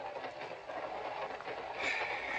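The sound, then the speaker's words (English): A train runs along the tracks with a steady rumbling rattle and a hissing wash throughout, with no voices. “Crummy train, no privacy. Decent train, you get a compartment.”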